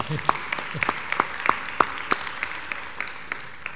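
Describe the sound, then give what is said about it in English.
Sparse, uneven clapping from a small audience welcoming a family with a new baby at a morning neighborhood gathering; many crisp, separate claps at an irregular pace, moderately loud, fading slightly toward the end. “Yeah, let's give them a hand.”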